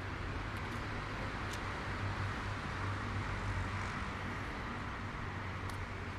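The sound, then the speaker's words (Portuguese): Car traffic on a city street forms a steady low rumble and broad hiss, with no single vehicle passing out clearly from the constant wash. “esse barulho de automóveis é exatamente porque estamos chegando a Nossa Senhora do Carmo com o Uruguai.”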